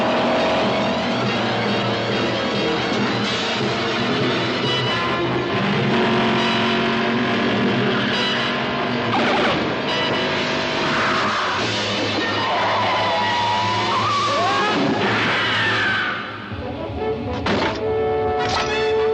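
V8 interceptor car engine revving in a video game, loud and continuous throughout and mixed with a dense layered backdrop, dipping briefly near the end before picking up again.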